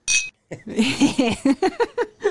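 Glasses clink together in a toast, opening with a short, bright ringing chime, followed by a run of quick pitched bursts.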